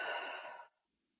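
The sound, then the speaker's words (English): A deep breath is exhaled out through the mouth during a guided breathing exercise. It is a single long, soft, breathy rush of air that tapers off and ends in silence. “Nice deep breath. Out the mouth.”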